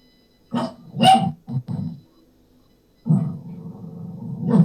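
An excitable dog barks a few quick times, then after a pause gives a longer, lower rumbling vocalization that grows louder toward the end.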